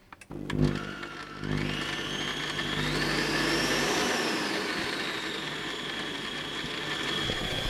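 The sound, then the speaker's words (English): Electric kitchen mixer starts after a brief knock, then runs with a loud, steady high-pitched motor whine. The pitch climbs slightly as it spins up, then holds level with no talk over it. “Screw this. I'm gonna use a mixer.”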